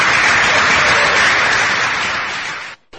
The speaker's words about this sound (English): Please put your hands together and welcome to stage the one and only Dean Becker.